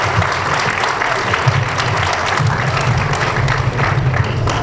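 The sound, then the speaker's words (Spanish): Audience applause at an arts and education event after a professor is introduced, dense and steady clapping that fills the whole clip at an even loudness. “Fuerte aplauso.”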